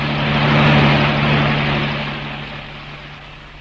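A car engine is driven hard, a steady low drone with broad rushing noise that swells over the first second and then gradually fades.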